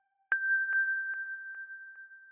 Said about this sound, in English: And the second melody on this glassy FM bell sound.